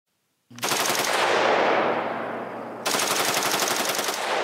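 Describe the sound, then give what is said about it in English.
Rapid automatic-style gunfire from a rifle fitted with a bump stock: two long, continuous bursts of fast, rattling shots, the second starting right after the first, loud and with no talk. “Here's what footage of a bump stock looks like. This is what, apparently, the shooter in Vegas was using.”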